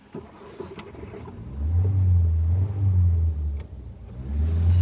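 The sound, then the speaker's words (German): Car engine revving and driving off, a deep low rumble that swells from about one and a half seconds in and holds loud and steady to the end, with no voices. “Wir fahren zur Südküste, zu der Fischerhütte Ihres Freundes. Los!”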